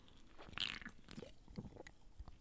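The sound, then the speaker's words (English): A quiet sip of zero sugar Canada Dry ginger ale, with faint slurping and wet mouth sounds. A brief sharper peak comes early, followed by soft smacking noises. “and you'll hear me sip this beautiful Canada Dry”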